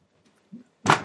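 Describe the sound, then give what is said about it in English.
A knee bangs against something: a soft low bump, then a loud, sharp thud that rings briefly before fading. “bang my knee”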